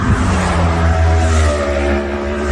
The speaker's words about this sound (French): C'est des courses en fait, donc c'est-à-dire qu'ils passent par groupe de 7, 8, 10 motos. Et je pense qu'ils ne peuvent pas aller plus vite que ce qu'ils font. Ils sont vraiment à fond et c'est des allers-retours, donc c'est vraiment infernal.